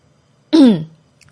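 A single throat clear, voiced and fairly loud, a short rasping burst that fades quickly and stands alone with no talk around it.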